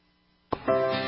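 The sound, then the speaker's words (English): Laboratory vacuum pumps hum. After a quiet half-second a short burst breaks in, then a loud, steady drone with strong even tonal harmonics sets in and holds. “I'm wearing this microphone because we have a lot of noise in the lab because of all of the vacuum pumps.”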